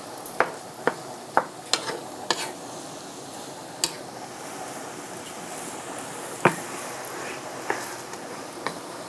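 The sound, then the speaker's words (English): Sauce simmering in a pan gives a steady soft sizzle and hiss, broken by many sharp little ticks and pops spread unevenly across the stretch, with no voices. “Sauce is in here. It's a different sound. Totally different sound. And it's simmering now.”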